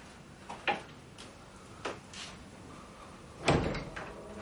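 A prison cell door being opened and then pushed shut with an elbow: a few faint clicks and soft knocks, then one heavier thump near the end, all quiet.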